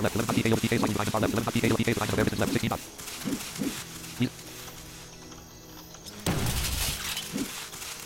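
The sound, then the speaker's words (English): Shattering crash of a shield breaking in a video game, a loud breaking burst under an excited commentary voice, then quieter game sounds and a second sharp burst near the end. “There goes the shield, she's trying to get another one on.”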